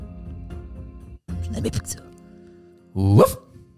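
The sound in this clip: A dog barks during a tabletop role-playing game session. A couple of short, sharp barks stand out among people talking.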